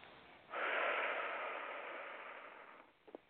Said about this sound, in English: Take a nice deep breath.